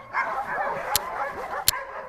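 Excited barking and yipping from sled dogs about to be hitched to a quad, with short, high calls overlapping in a busy, restless run.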